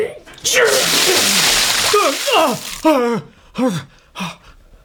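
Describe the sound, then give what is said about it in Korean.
A splash of cold well water thrown over an unconscious person inside a royal interrogation bureau: a long, loud rushing burst, then breathy gasping and groaning vocal sounds as the person comes to. “방금 길어올린 차가운 우물물 두 양동이를 맞고서야 퍼뜩 깨어난다.”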